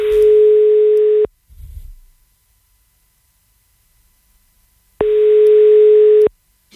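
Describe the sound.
A telephone line sounds while a radio station calls a listener: two long, steady buzzing tones separated by a few seconds of near silence, with only a brief faint noise in the gap.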